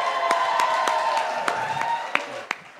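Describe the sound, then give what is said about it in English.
Applause from a comedy club audience for a couple, a moderate, continuous patter that thins toward the end, where a few sharp, separate claps stand out. “Round of applause”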